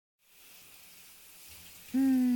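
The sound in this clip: Hot water runs for a bath as a steady, soft hiss. Near the end, a loud, sustained tone joins the water noise.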